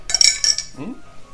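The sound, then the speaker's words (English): A plastic water bottle is cracked open with a brief burst of sharp, crackling snaps and clinks. The sound fades quickly into quiet. “Speaking of, we gotta crack open another bottle of water here in 1 second.”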